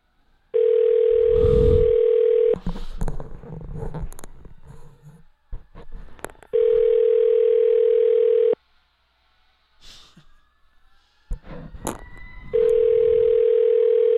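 Ringback tone of an unanswered telephone call: three steady, loud tones of about two seconds each, spaced roughly four seconds apart, with faint clicks and rustling in the gaps.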